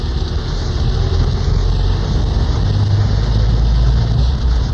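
Loud, steady engine and road rumble from a car driving around a former defence test site, a constant low drone that holds level without pauses.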